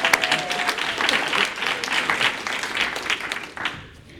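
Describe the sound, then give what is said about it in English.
Audience applause after a song at an evening gathering: dense, steady clapping from many hands throughout, thinning out at the very end. “Give them another hand there.”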